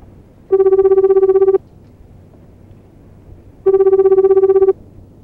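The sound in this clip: Ringback tone of an outgoing telephone call to a home in Aomori Prefecture. Two steady buzzing tones, each about a second long, are separated by a gap of about two seconds over faint background hiss.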